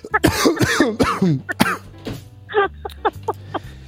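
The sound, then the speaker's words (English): Coughing in a few rough, irregular bursts, louder at first and then shorter and more spaced, over a low steady hum. “The coughing makes it way better.”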